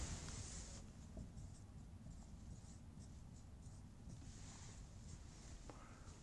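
Someone writes out a rotation matrix. The faint, continuous scratching of the writing runs steadily throughout, with a few small taps and strokes rising slightly above the soft hiss.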